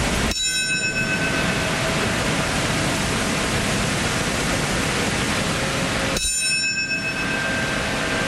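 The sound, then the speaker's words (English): A memorial bell tolls in New York City at 9:03 a.m., marking the moment the second plane struck the South Tower on the 9/11 anniversary. There are two ringing strikes about six seconds apart, each slowly decaying over a steady broad rushing noise. “That is the sound of the 9:03 a.m. bell in New York City, marking the exact moment when United Airlines Flight 175 crashed into the South Tower at the World Trade Center.”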